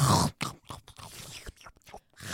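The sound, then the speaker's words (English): Spaghetti being slurped and chewed: a few loud, wet, noisy slurps and mouth bursts in an uneven rhythm, separated by short pauses, with no talking. “I'm slurping spaghetti. I know some of you hate slurping.”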